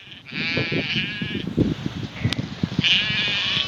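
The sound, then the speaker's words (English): Herdwick lambs bleat on a Cumbrian hill farm, two drawn-out, wavering high cries with a short call between them, heard over a steady rush of wind. “And here's a little sound. This is of Herdwick lambs, the breed he raises.”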